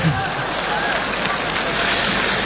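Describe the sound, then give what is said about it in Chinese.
Applause from the audience at a Chinese New Year gala show, a dense and steady wash of clapping that holds at an even level for the whole stretch. “谢谢大家掌声的鼓励”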